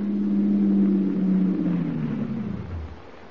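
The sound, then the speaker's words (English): A black sedan drives up to a garage: its engine drones low and loud, the pitch sliding steadily downward as it slows, then fading near the end. “While Skeezix is out making arrangements for the big bowling match, Wilmer is alone in the garage as two men drive up in a black sedan.”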